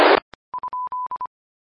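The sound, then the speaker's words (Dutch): A telephone dial tone while placing a call: after a brief burst of noise and a click, a steady mid-pitched tone sounds in a series of short and longer beeps, then stops. “Ja, dan bel ik Boris even, want die moet ik even spreken.”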